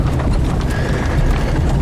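Hooves of a horse pulling a carriage clop steadily and loudly through the whole stretch, a dense, continuous clatter with no voices.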